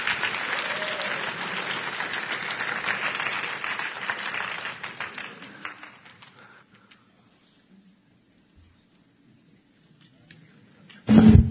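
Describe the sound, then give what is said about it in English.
Audience applause welcoming a person onto a stage: dense, steady clapping for about six seconds that thins out and fades to near silence, followed by a brief loud thump at the very end. “But Charles, I want you to come on up and let's give Charles a big welcome.”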